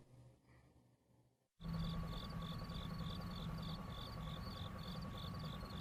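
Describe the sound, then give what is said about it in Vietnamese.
Crickets chirp in hibiscus bushes at night: after a brief quiet start, a loud, steady trill of many rapid, evenly spaced pulses runs without a break, with no voices. “Tiếng dế kêu đầy ngoài bụi dâm bụt.”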